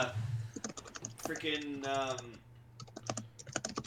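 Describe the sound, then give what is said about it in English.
Keys clatter on a computer keyboard in many quick, faint taps with an uneven rhythm. A voice briefly speaks over the typing midway through. “we can hear you typing.”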